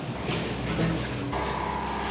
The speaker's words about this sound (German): Ein Porsche fährt an uns vorbei.